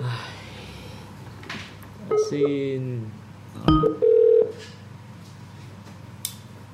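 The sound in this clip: Electronic telephone dialing tones sound as a line is opened to take a listener's call: a few brief stepped beeps, then a short steady tone, over a soft, noisy background.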